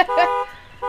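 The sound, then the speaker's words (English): An electronic alarm blares in bright harmonic tones, holding for a short burst, dipping briefly, then starting again near the end. “we hear an alarm, we don't even look anymore.”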